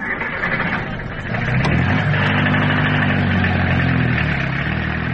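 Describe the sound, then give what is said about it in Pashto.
A taxi's car engine runs with a steady low mechanical hum that grows louder and fuller after about a second and a half, then holds at that level, with no voices. “راځه ما تیار ټیکسی نیولی دی، یو ځای به سره لاړ شو.”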